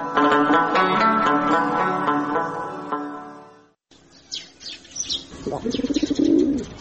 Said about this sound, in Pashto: ته دیوال په سر کوترې، ته څنګه غومبور وکې؟